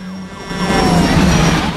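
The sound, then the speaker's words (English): Sirens from a couple of fire engines driving past at night near a large fire wail as tones over a loud, steady engine roar throughout. “makes it to a road and watches as a couple of fire engines go by.”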